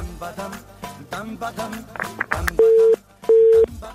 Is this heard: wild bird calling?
no